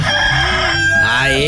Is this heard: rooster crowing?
yes